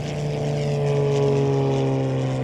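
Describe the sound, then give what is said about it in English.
Droning light-aircraft propellers spinning up at night in Louisiana woodland, a loud, steady, low harmonic hum that holds even throughout. “the propellers start to turn on the wings of a light aircraft until they're blurred into one.”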